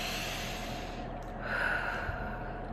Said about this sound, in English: Sit back for a second. Take a deep breath.